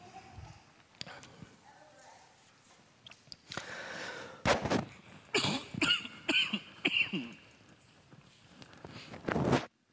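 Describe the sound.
Coughing and throat clearing from a man with something caught in his throat, several sharp, loud bursts breaking up his ongoing talk.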